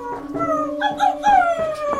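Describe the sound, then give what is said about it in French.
A dog howling in front of a door, a drawn-out, wavering cry that swells and dips through several long phrases, loud and alone with no talk. “Mon chien s'est mis à hurler à la mort devant la porte de Monsieur Bergamot.”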